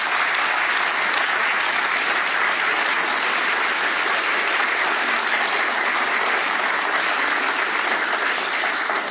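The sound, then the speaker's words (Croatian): Sustained audience applause after a classical recital of Spanish folk songs with guitar. Dense, steady clapping fills all nine seconds without a break. “Nagradimo ih još jednim velikim pljeskom, uistinu zasluženo.”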